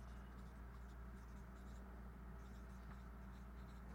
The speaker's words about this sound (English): Well, let me write them all down.